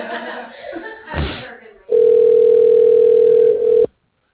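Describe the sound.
A steady telephone line tone plays while a call is being transferred to a receptionist, a single unbroken, level hum lasting about two seconds that follows a brief stretch of talking and then cuts off abruptly.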